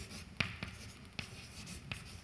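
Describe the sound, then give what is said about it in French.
An equation is written out by hand: faint, scratchy strokes with a few light taps at uneven intervals, quiet and with no one speaking. “Peut-être j'écris la métrique spatiale.”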